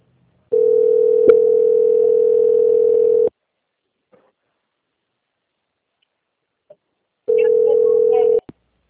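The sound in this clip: Steady telephone line tone while a bank call is transferred and dialed: one unbroken buzz lasting about three seconds, then near silence with a few faint clicks, then a second, shorter tone of the same pitch.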